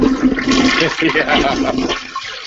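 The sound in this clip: A toilet flushes with a loud, continuous rush of swirling water that holds steady for about two seconds, then tapers off at the end.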